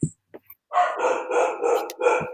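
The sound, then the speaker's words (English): Dogs bark in a quick run of a few loud, rough barks, preceded by a couple of faint clicks. “I assume people can hear my dogs barking.”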